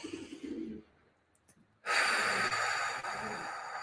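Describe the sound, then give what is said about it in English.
A deep breath taken during a guided group breathing exercise: a soft airy breath, a brief quiet pause, then a long, loud rushing breath that holds to the end. “Okay, let's take a deep breath together.”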